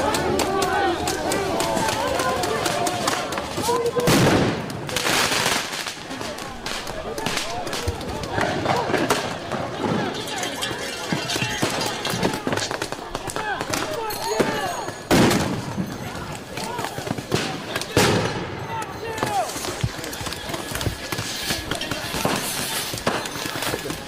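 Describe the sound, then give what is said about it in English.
Explosive devices go off during a night attack on the Portland ICE facility, sharp bangs and bursts within a dense, noisy din, with people shouting and talking throughout. “I'm pretty sure this video is actually from the night of June 18th going into the 19th, when they attacked the Portland ICE facility with explosive devices.”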